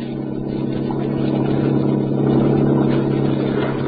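The engine rumble of a yacht, played from a sound-effect record with few highs, forms a continuous low, droning hum that swells slightly midway, with no talking.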